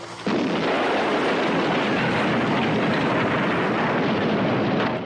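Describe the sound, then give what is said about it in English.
Steady roar of a waiting helicopter's spinning rotor blades in a camp. It starts abruptly and holds loud and broad-band, a continuous rumble with a faint pulsing texture. “heads across the camp towards a waiting chopper with spinning rotor blades”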